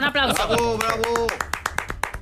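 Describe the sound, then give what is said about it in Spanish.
Audience applause on a quiz show after a remark about culture, beginning under a voice and breaking into many quick, bright claps that thin out toward the end. “Eso se merece un aplauso, ¿no? Un aplauso.”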